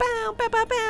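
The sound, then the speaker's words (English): A voice imitates a basketball game horn at a sporting event with four buzzy, sustained "bow" syllables in quick succession, harmonic and nasal, lasting under a second. “a basketball game, they do like that horn sporting event sound.”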